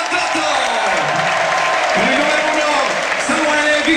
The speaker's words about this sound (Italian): Intanto un grande applauso per gli eroi bianconeri.